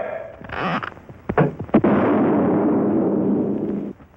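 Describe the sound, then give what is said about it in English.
Guns shooting Quaker puffed wheat and puffed rice let off a few sharp bursts in quick succession, followed by a loud sustained rushing hiss that then cuts off. “Quaker puffed wheat and Quaker puffed rice are shot from guns. We'd like to show you this process.”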